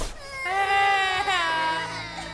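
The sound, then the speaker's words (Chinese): Small children cry from inside covered goose cages, a loud, sustained, high wailing cry that wavers in pitch for over two seconds with no talk over it. “只听得哇哇的哭声。”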